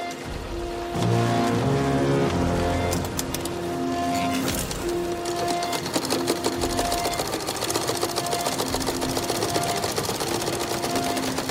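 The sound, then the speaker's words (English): Sewing machines clatter in a steady, dense mechanical rattle in a World War I film scene, layered with a harsh, abrasive musical score of sustained tones. “So you're going to hear the sewing machines in this clip and also the abrasive score that recurs throughout the film.”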